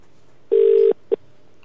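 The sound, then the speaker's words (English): Phone ringback tone heard through a handset: one steady low-pitched electronic beep lasting under half a second, then a much shorter blip, with no voices. “I'm getting a ringtone.”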